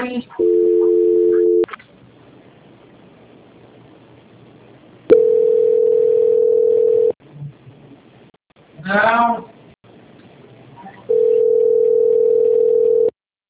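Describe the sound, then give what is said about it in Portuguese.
Steady telephone tones play during a call transfer, in three long sustained stretches separated by gaps of quiet line noise, with a short burst of voice between the second and third tones. “Eu vou transferir para a auditoria, tá bom? Tá bom. Transferência.”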